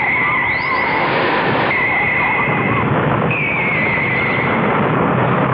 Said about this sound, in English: Use my disintegrator gun to blow up one half of my motors and see what happens.